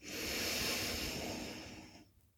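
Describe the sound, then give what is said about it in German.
A deep inhalation through the nose during a guided breathing exercise: a long, steady airy hiss that holds strongly for about two seconds, then tapers off and falls silent near the end. “Und nochmal einatmen über die Nase.”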